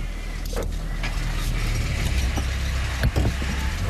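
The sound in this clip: A car drives off in pursuit, its engine a steady low rumble throughout, with a few faint clicks and rattles on top.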